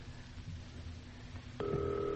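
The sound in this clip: A telephone ringing while the caller waits for someone who will not answer. A steady electronic tone starts about two-thirds of the way in over a low background hum.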